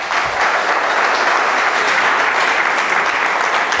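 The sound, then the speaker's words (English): Audience applause welcoming a speaker onto a stage: a loud, dense, steady wash of many hands clapping, continuous from start to end with no talking over it. “Thank you. You guys are some of the best clappers ever.”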